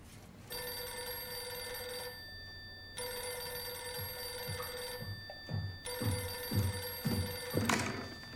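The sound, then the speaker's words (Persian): A telephone bell rings for an incoming call in three long bursts of steady, bright tone separated by short pauses, with a few soft thuds toward the end. “یه لحظه، باید یه تماس تلفنی کوتاه بگیرم.”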